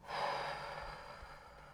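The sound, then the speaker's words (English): A deep breath out: one long, soft, breathy exhale that swells quickly and then tapers gradually over nearly two seconds, heard alone with no talk. “Take a deep breath in. Take a deep breath out.”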